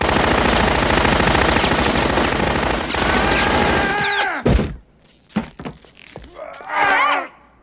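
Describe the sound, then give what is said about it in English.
A Tommy gun fires in a film scene as a dense, rapid burst of automatic gunfire lasting about four seconds. A few separate heavy thuds and thumps follow, then a groan-like vocal sound near the end. “Picard pulls out a Tommy gun and he shoots the Borg with the Tommy gun.”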